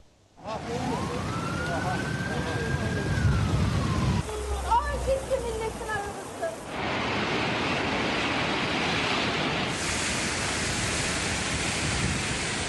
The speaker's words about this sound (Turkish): Dereler yatağından taştı, evleri, tarım arazilerini, yolları su bastı. Dere yatağındaki 2 katlı ev yıkılarak suya kapıldı. O anlar kameraya yansıdı.